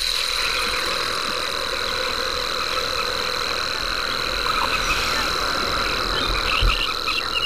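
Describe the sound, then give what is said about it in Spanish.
Steady, high, clean stridulation of a rare cricket known as cascabel de plata, from arid, salty lands white with salt, holds an unbroken pitch over low background noise. “un grillo que canta, es muy escaso, que canta estridula en las tierras más áridas, salobres, blancas de sal, y que lleva paradójicamente el nombre de cascabel de plata.”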